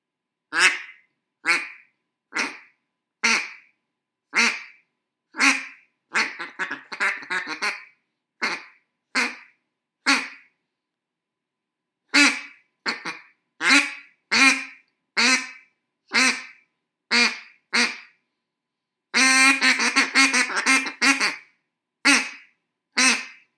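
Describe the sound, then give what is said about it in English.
A Buck Gardner Ducks Unlimited duck call is blown in many sharp, spaced quacks, broken by two stretches of rapid chattering bursts. It is loud and clear, with no talk over it. “But this is my Buck Gardner Duck Commander. I'm not Duck Commander. My Buck Gardner Ducks Unlimited call.”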